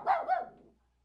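A happy dog barks twice in quick succession, two short, mid-pitched barks heard alone. The second bark trails off into silence.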